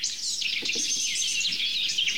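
Blackcap subsong, the soft pair-forming warble, with a blue tit and a blackbird in the background: a continuous, rambling stream of high, thin chirps and twitters that runs unbroken from start to finish.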